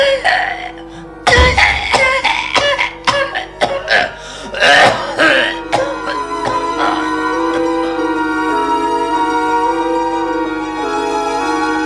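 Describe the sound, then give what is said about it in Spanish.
A hoarse, deafening coughing fit from a man backing hunched out of a room: many harsh, loud cough bursts in rapid, uneven succession, then sustained tonal notes carrying on alone. “salió de la habitación encorvado, acuciado por un ataque de tos bronca, aturdidor.”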